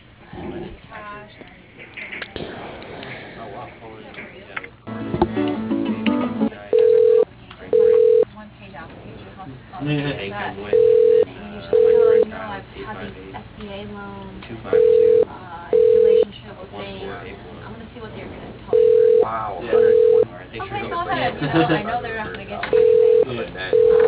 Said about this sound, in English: Let me transfer you just a moment.